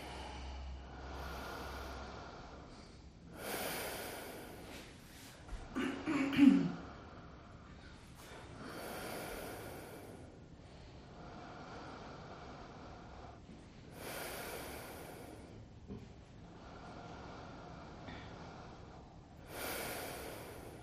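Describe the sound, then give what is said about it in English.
Deep, forceful breathing during a yoga session, with several long, airy inhales and exhales that rise and fall at slow, spaced intervals. The breaths are faint, with one breathier, louder swell midway. “Return to your breath. Each inhale, draw more air in. Each exhale, push more air out.”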